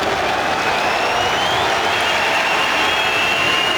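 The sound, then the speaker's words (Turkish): Applause from claret-and-blue football fans fills a stadium during a friendly match, a dense, steady roar of clapping and crowd noise that holds at full loudness throughout. “Evet, Bordo Mavililerden de yükselen alkış.”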